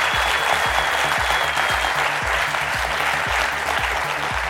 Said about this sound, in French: N'hésitez pas à faire du bruit pour les remercier parce que vraiment, équipe adorable, merci.